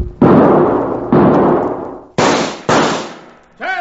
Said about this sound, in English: get that carbine out of your saddle boot and use it